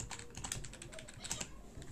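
Rapid typing on a computer keyboard as a message is written during a video game, with many quick, uneven clicks at a steady, fairly loud level and no voices.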